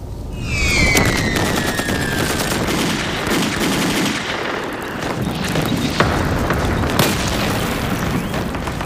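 An air strike bombing enemy positions makes a dense, unbroken roar of explosions mixed with rapid bursts like gunfire. Several high whistles fall in pitch near the start.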